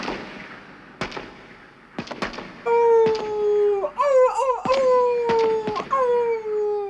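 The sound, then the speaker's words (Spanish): An old farm dog barks in a dramatized folktale scene with a wolf. Sharp, sudden cracking bursts are heard, and a loud, sustained howl-like tone wavers in pitch through the second half. “Al oír los ladridos, salió el labrador con su escopeta.”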